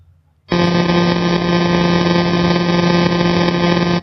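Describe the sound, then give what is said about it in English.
A sonified millisecond pulsar spinning 174 times a second makes a loud, steady buzzing drone with rich harmonics. It starts abruptly, holds unchanged for about three and a half seconds, then stops just as suddenly. “So pulsars can get a lot quicker. They go up, you actually have millisecond pulsars that are spinning thousands of times a second. But to take one that's spinning 174 times a second, that would sound a bit like this.”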